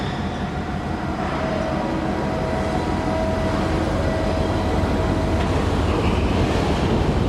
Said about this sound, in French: Les grues font leur balai. À l'arrière-plan, il y a tous les conteneurs entassés qui attendent.